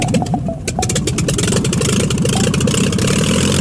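Propeller airplane engine starting and revving after the propeller is spun by hand, a loud continuous rumbling roar with rapid rhythmic pulses, holding steady and dense throughout with no voices.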